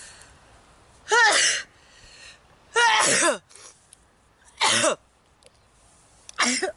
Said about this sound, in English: Much snot, 50 female sneezes and 5 male sneezes.